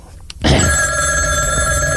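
A telephone rings with a loud, steady, tonal bell. The ring starts about half a second in and carries on unbroken to the end.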